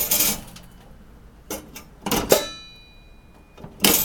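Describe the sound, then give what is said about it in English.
Popcorn dumped from a hot kettle onto a tray as the handle is flipped down, making a few loud, clattering, rustling bursts separated by short pauses, with a faint high metallic ring lingering after one of them. “not touch that kettle because it is hot. So I'm going to take the handle and flip it down. And I'll do it again. Pick it up, flip it down.”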